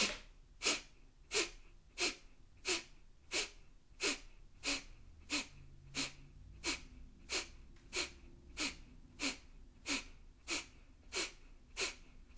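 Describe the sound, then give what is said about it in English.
Forceful, sharp exhalations are pushed out through the nose during a clearing breathwork exercise. Many short puffs follow one another in a steady, quick rhythm, each about equally loud, with quiet pauses between them. “As you exhale, draw your belly into your back and force the air out of your nose.”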